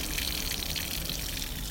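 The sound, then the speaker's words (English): Water runs from a small nasone street fountain in Rome, a tiny fountain with a long, narrow spigot, as a constant, unbroken hissing gush heard alone. “This is the sound of a nasone. A nasone literally means a big nose. But what it actually is a very small fountain.”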